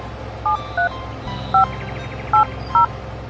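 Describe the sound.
Five short electronic keypad tones from a telephone being dialed, unevenly spaced and set over a low steady hum.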